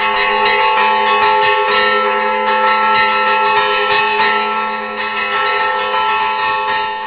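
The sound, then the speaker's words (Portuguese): Church bells ring a full peal in São João del-Rei, Minas Gerais, Brazil. Many overlapping strikes blend into a dense, loud, continuous ringing with no voices. “São João del Rei, em Minas, tem um dos repiques considerados por especialistas e sineiros como dos mais bonitos do país. É de lá esse som que você ouviu agora há pouco.”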